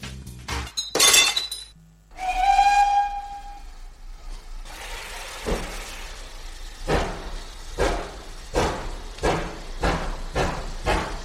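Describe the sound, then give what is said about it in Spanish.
A glass bottle is smashed against a steam locomotive, as when christening a ship: a sharp shatter with clinking fragments, then a long whistle and steady rhythmic chuffing of a steam train. “Tira la botella esa que haces como cuando se inaugura un barco, inaugura la locomotora, inaugura este viaje y venga.”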